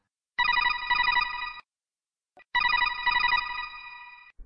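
Telephone ringing while a call is being placed: two bright electronic ring bursts, each a little over a second long, separated by a pause.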